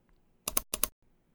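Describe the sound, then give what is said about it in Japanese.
Clicks on a computer come in two short, quick bursts of sharp tapping, each made of a couple of rapid clicks, with near silence before and after. “私は歯を食いしばってパソコンをクリックします。”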